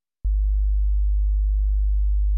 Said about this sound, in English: Now a sine wave at 50.5 Hz, a 1% change.